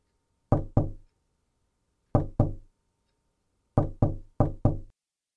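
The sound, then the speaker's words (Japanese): Knocking on a wooden door: eight sharp knocks in three groups, two, then two, then a quicker four, each a hard woody rap with a short decay, with silence between groups. “戸を叩く音がします。”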